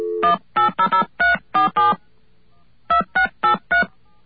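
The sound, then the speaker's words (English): Touch-tone telephone dialing a number: eleven clear beeping tones, seven in a quick run, a short pause, then four more at a steady pace. “I'm sure it doesn't matter if you dial an extra seven. Okay, let's call that up and see if what this person says is true.”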